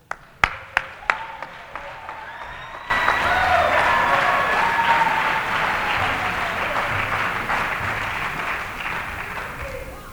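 Audience applause for a live trio in Lucerne: a few sharp taps come first, then a dense, steady wash of clapping starts a quarter of the way in and carries on loudly to the end.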